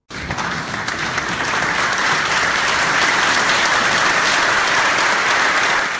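Audience applause at the close of a stage show in Sydney honouring an actor: dense, loud clapping that starts abruptly and holds steady throughout, without a break.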